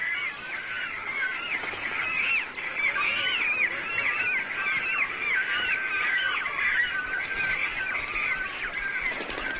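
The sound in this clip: Many cormorants calling noisily in the spring breeding season while competing for nest sites: a dense, continuous chorus of harsh, honking croaks, loud and unbroken throughout.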